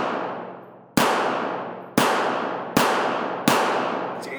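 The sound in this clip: Gunshots fired at a thrown plate: four sharp, loud cracks about a second apart, each followed by a long decaying tail, with no talk in between.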